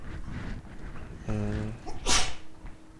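A single sneeze: a drawn-out voiced intake, then a sharp, hissing burst, loud against faint background noise.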